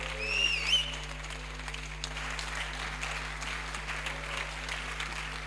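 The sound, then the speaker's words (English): A church audience gives a standing ovation, clapping to welcome a reverend who is about to preach at a morning service. The applause is dense and sustained, with a brief shrill whistle near the start over a low steady hum. “Church, with a standing ovation and a hand, let's welcome Reverend Raphael Owusu-Entry as he brings the word of God to us this morning.”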